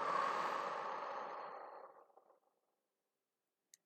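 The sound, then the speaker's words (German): A quiet, long breath out through the mouth during a guided breathing exercise while smelling herbs, a soft rush that fades away over about two seconds, alone. “Beim Einatmen durch die Nase tief einatmen und durch den Mund ausatmen.”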